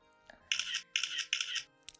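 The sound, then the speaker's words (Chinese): A mobile phone camera takes photos, giving three loud, bright, hissing shutter bursts in quick, even succession. A soft click comes before them and a shorter burst after, over a faint steady tonal hum. “儿子，快，拿你手机给你爸拍张照片，留个纪念。”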